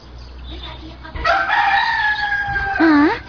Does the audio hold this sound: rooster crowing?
yes